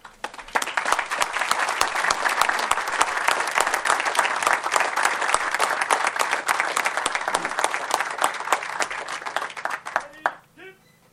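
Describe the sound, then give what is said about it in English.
Standing ovation at an official event with the governor present, loud dense applause from a large audience that holds steady for about ten seconds before quickly dying away. “at this time, I'd like to ask everybody to join me in a standing ovation for Ascend Elements and our governor”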